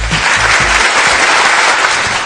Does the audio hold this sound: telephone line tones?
no